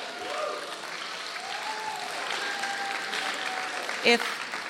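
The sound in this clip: Applause and cheering from a conference audience forms a steady, fairly faint wash of crowd noise, with a voice speaking over it and one brief sharp burst near the end.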